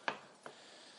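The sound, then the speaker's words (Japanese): A knife cuts konnyaku on a cutting board, making two short, quiet taps spaced a fraction of a second apart, with the first tap sharper than the second. “あ、切りにくい、こんにゃく切りにくい、手切りそう”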